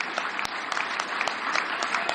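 Sustained applause from a crowd during a standing ovation, a dense even wash of clapping with a few sharper individual claps standing out, steady in volume and with no voices above it.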